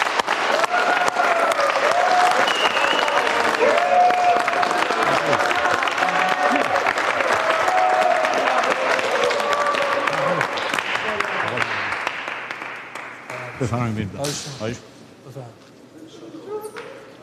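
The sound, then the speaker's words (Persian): Audience clapping hands in a long, dense burst that stays loud for roughly ten seconds, then thins and fades away, leaving voices and scattered other sounds. “پس به افتخار آینده روشن خودتون دست بزنید.”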